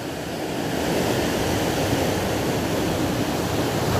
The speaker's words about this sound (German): Lausche dem Meer, lausche den Wellen,